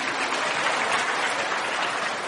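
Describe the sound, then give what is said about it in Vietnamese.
An audience at a talk breaks into applause, a steady, dense wash of many hands clapping that holds at an even loudness from start to finish. “Cho tràng pháo tay.”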